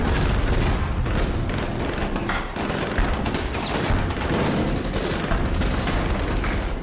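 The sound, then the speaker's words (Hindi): Machine gun and mortar fire as soldiers advance on a police post, a dense, continuous barrage of booms and rattling bursts with no pauses, loud throughout. “Shalimar चौकी पर तैनात special reserve police के जवान machine gun और mortar fire के cover में आगे बढ़ते हुए पाकिस्तानी सैनिकों का मुकाबला नहीं कर पाए।”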